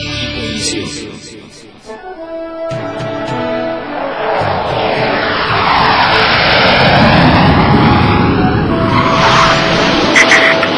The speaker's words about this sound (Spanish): A ver, ya estamos aterrizando, mi Cocoyome.